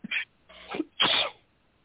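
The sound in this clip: A person sneezes: a brief sharp intake and a building breath lead into a loud, breathy burst, heard alone with no talk.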